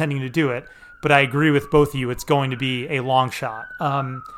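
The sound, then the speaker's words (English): A police siren on a busy city street corner in Hoboken, a steady wailing tone that dips slowly in pitch, heard faintly beneath a continuous conversation between people. “pardon the sirens here on our busy corner in Hoboken”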